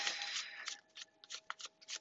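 Tarot cards being shuffled for a reading give a faint, papery riffle: a longer flutter at first, then several short, crisp bursts of card noise with brief pauses between them.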